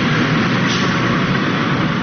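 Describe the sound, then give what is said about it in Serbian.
A bus carrying about 80 refugees, near the Horgoš border crossing, gives off a steady, loud, unbroken engine rumble with broad road noise. “Autobus sa oko 80 izbjeglih iz država Bliskog istoka zaustavlja se na oko 4 km od graničnog prelaza Horgoš.”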